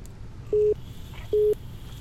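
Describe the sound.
Incoming phone call tone: two short, low beeps, evenly spaced and much louder than the faint background hiss.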